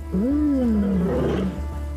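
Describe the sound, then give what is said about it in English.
A pride male lion roars as he challenges an intruding male during a fight with intruders. One deep, loud roar swells and then sinks in pitch over about a second and a half, ending in a rough, grunting close. “A lion bares its sharp teeth. That's Big Toe roaring like a king.”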